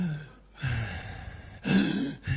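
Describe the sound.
Deep, heavy breathing for a doctor's stethoscope check at a hospital visit for a cold and sore throat: a few loud, rasping, voiced breaths in a row, separated by short pauses.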